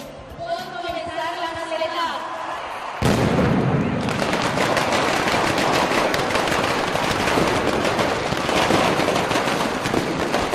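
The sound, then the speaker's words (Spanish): A mascletà firecracker barrage, the first of the Valencia Fallas, set off with 125 kilos of gunpowder, erupts abruptly after a brief voice into a loud, dense, unbroken roar of rapid-fire bangs and crackling that sustains steadily to the end. “Valencia huele a pólvora y suena a masqueta.”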